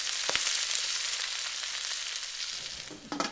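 Food sizzles as it cooks over a fire, a steady bright hiss of frying with a faint clatter near the end.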